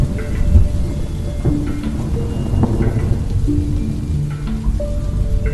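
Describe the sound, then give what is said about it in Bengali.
A thunderstorm with heavy rain: a dense, constant hiss of downpour and pattering drops, with low rumbling underneath, steady and loud throughout. “অমনি মেঘ ভেঙে বৃষ্টি নামল”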